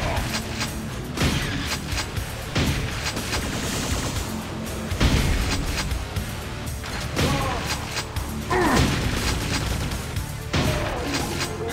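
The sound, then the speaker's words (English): Grenade explosions and gunfire in a video game form a dense, loud barrage of bursts, crashes and rattling shots that continues throughout with no pause. “shit's just exploding. Got grenades, nice.”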